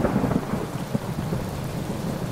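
Heavy rain pours down steadily during a thunderstorm, a dense hiss with thunder rumbling low beneath it throughout, no voices.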